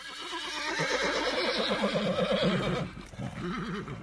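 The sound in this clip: A horse neighs in a long, loud, wavering whinny, then lets out a second shorter whinny after a brief dip.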